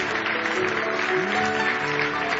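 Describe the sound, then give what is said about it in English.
Congregation clapping hands in praise during a church service, a dense, steady wash of applause lasting throughout with a faint murmur of voices and some tonal sound mixed in. “Now give him another hand clap of praise tonight.”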